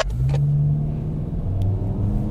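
Deep engine rumble of a car floored from a standing start, a loud, steady low drone of hard acceleration that holds without a break, with no voices.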